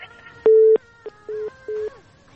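A telephone busy signal after a disconnected call: three steady mid-pitched beeps with a brief blip between the first two, sounding alone.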